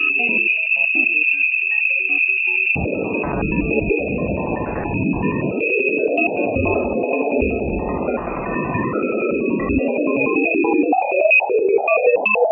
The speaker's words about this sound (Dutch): De interactie tussen die twee, dat geeft een heleboel fluctuaties heen en weer. Mm-hmm. Hebben ze gemeten en die frequenties hebben ze nadien omgezet in geluid. En dat klinkt zo.